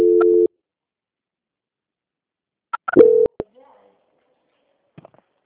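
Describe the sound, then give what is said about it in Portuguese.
A telephone line tone sounds while a bank call is being transferred. A short steady beep comes first, then clicks and a second brief tone. A few faint blips follow, with near-silence between them. “Eu vou transferir esse contato para o controle de qualidade que vai dar andamento à contratação, tá bom? Tá bom. Só mais um minutinho. Tá. Transferência.”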